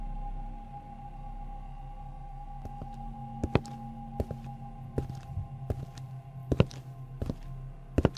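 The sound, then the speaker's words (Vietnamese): Footsteps clomping on a boat deck: a few soft thuds, then a series of louder, irregularly spaced clomps over a low, steady hum. “Minh nghe như có tiếng bước chân lộp cộp, tựa như là có người đang đi lại ở trên thuyền”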